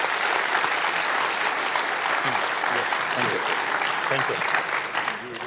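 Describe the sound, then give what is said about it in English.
Sustained applause from an audience at a ceremony, a dense, steady wash of clapping that holds even for the whole stretch, with a few voices faintly mixed in. “Thank you very much, and applause.”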